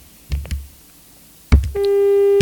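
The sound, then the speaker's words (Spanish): A telephone line tone after a phone call drops: a few dull clicks and knocks, then a steady, buzzy electronic tone that starts abruptly and holds to the end, with no voices. “Se cortó la llamada.”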